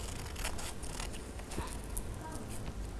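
Scissors snip through paper, following a line a teacher has drawn. Many short, crisp cuts come in an uneven rhythm over steady background noise.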